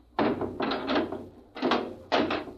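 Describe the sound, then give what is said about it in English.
A hatch is slammed shut, heard as a few heavy, resonant thunks in uneven succession, each a dull, full-bodied knock with a short ringing tail. “Well, you'll slam the hatch and off we go.”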